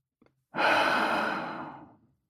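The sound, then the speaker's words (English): A deep breath sounds as one long, loud, airy whoosh that swells quickly and then slowly tapers away, heard alone after two tiny clicks. “Now, take a deep breath. Let it out.”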